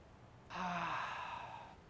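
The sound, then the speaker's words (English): A deep breath: one long, airy sigh-like exhale that starts abruptly after a quiet moment, swells loud at once, then slowly tapers over more than a second, with no voices. “So take a deep breath.”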